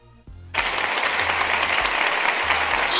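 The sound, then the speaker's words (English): Audience applause at a show breaks out after a brief low tone and carries on loud and dense to the end. “Are you clapping for me? They're all clapping for us.”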